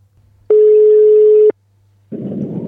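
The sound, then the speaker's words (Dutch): An outgoing telephone call rings as a single steady, loud one-second tone at a low-mid pitch, followed by a short silence and then a burst of hissing noise from a line to a caller sitting in a car. “laten we eens gaan bellen”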